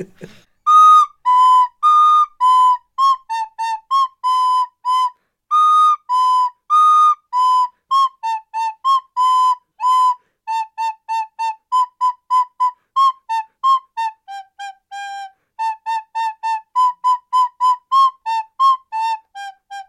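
A piccolo flute plays a folk song, bright, pure high notes in many short phrases with brief gaps between them. The melody steps gently up and down, solo and unaccompanied.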